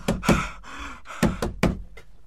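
Knocking on a door: a few hard, sharp raps in two uneven bursts, a pair at the start and another cluster after a short pause. The knocks are loud against a quiet background.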